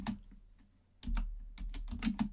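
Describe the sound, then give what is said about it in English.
Keystrokes on a computer keyboard tap out a query into a search bar, a quiet run of quick, irregular clicks that pauses briefly and then resumes in a denser burst. “this is a horrible thing to type into the search bar”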